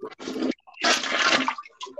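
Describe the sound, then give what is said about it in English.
A toilet flushes with loud rushing, gurgling water that comes in a few surging bursts separated by brief quiet gaps. “He just flushes the fucking toilet.”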